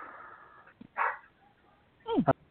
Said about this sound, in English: Don't mind that. That's just my dog being over there.